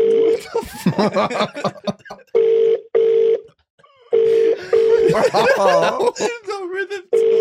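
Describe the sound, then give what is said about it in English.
Hotel telephone ringing in repeated double bursts of a steady electronic tone, with people talking and laughing over and between the rings. “Is this the noise it makes in the hotel? Well, fucking answer it, Gary.”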